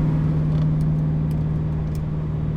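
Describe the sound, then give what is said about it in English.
Steady engine drone inside a car cruising in fifth gear at 2500 RPM in the right lane of a highway with the windows rolled up, a low, even hum with road rumble underneath, unbroken and without talk. “That's windows up. Same kind of thing, guardrail on the right, right lane, 2500 RPMs in fifth gear.”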